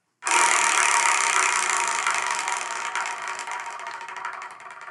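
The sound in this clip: A selection wheel spinning: a dense, loud ratcheting whir that starts abruptly and fades steadily over about five seconds, its clicks growing more distinct toward the end.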